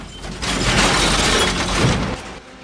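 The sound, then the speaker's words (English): A Falcon car's windscreen is smashed with a long exhaust pipe as the car surges forward: a loud, noisy crunching shatter that lasts about two seconds, then fades. “Wes smashes the Falcon's windscreen with a long exhaust pipe.”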